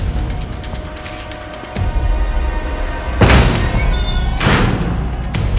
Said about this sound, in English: He moves round another corner and, still with his gun raised, he kicks open another door.